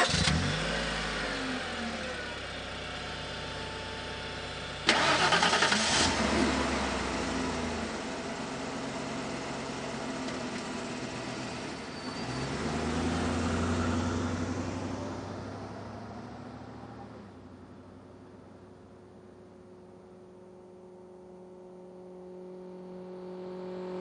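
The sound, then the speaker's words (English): Late model car engines start and run: a steady mid-pitched engine drone jumps louder at one point, then swells and eases as the revs rise and fall, settling to a quieter running hum before picking up again. “Late model vehicles.”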